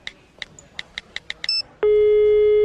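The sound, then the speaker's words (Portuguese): Telephone keypad tones as a call is dialed: a quick run of short beeps, then a loud, steady continuous tone that holds to the end. “Quer saber, meu? Vou ligar agora pros caras.”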